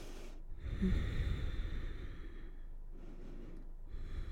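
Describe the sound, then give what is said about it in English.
Slow breathing during a yoga session: two long, soft airy breaths, each drawn out over a couple of seconds with a brief pause between, heard alone without speech. “A couple more breaths here.”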